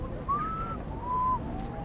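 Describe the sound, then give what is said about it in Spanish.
A person whistles in imitation of a bird call from Tuluá, Colombia: two thin, clear tones, the first longer and slightly rising, the second shorter and a bit lower, quiet over a low background rumble. “Y en Tuluá hay un pájaro que suena...”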